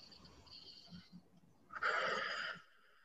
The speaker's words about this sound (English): So we're going to take another few deep breaths. We'll do 3 deep breaths.